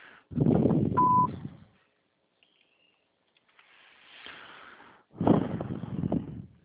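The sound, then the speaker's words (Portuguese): A voicemail beep on a phone line: one short, steady electronic tone sounding over a voice, followed by hiss and further sound. “Sua chamada está sendo encaminhada para a caixa de mensagem de traço de cobrança após o sinal. Após o sinal, grave sua mensagem.”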